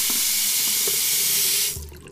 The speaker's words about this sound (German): Heute sprudelt unser Wasser aus der Wand.